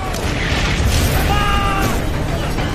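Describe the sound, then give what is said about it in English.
German artillery shells firing in a massive bombardment make a dense, continuous roar of overlapping booms and bursts, loud throughout with no pause. “Three and a half million German shells are fired in just 5 hours.”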